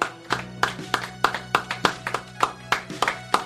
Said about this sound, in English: You guys stop clapping? Do we have any clapping on the board so we can relax? I'm all exhausted from clapping.